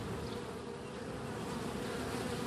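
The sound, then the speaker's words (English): Honeybees from two backyard beehives on a back deck make a steady, dense buzzing hum. It stays fairly faint and even throughout, with no voices. “That's the sound of the two beehives on my back deck.”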